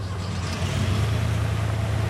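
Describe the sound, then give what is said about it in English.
Engine rumble of a moving van pulling away with a car driving behind it, a steady low drone under broad road noise that swells slightly after the first half second and then holds. “The moving van pulls away, and Nora drives behind.”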